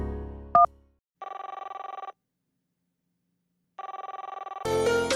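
A telephone rings twice on a call back, each ring a steady warbling electronic trill with a silent gap between, before another sound begins at the end.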